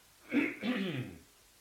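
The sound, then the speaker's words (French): A single quiet throat-clearing cough, a rough two-part burst lasting about a second and heard alone between pauses in speech. “Ça me fait tousser toutes ces questions tellement c'est palpitant.”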